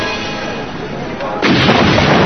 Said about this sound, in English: Explosion.